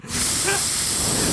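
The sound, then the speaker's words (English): A spray can blasts directly into a microphone, a loud, harsh, continuous hiss that starts almost at once and holds steady to the end of the short burst. “Are you spraying that directly into your microphone? Are we spraying it directly?”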